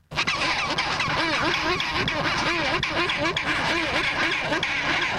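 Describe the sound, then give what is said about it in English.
Chinstrap penguins squabbling loudly over nest sites, a dense, continuous mass of harsh, overlapping braying squawks and rising calls from many birds. “That's a flavour of their fierce squabbling over nest sites, which are quite loud.”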